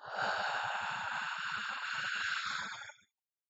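A deep exhaled breath during a guided breathing exercise: a steady, airy rush of air lasting about three seconds at even loudness, heard alone before it cuts off.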